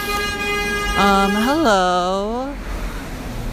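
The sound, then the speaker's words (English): A garbage truck passes on a street, giving off a loud tonal whine that bends up and down in pitch for about a second and a half before fading back into steady street noise. “what is that? Is that a garbage truck?”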